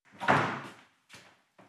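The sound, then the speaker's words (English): A door is closed with one loud, full thump. Two shorter, softer knocks follow as it settles, with nothing else around it. “I'm just gonna close the door because it will distract me.”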